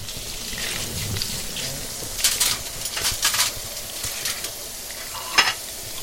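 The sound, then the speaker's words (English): Aubergine fritters fry in olive oil with a steady, hissing sizzle, broken by a few louder crackling bursts as they cook. No voices are heard. “Carmen is cooking aubergine fritters for lunch. She fries them in olive oil, but she's more sparing with it than she used to be.”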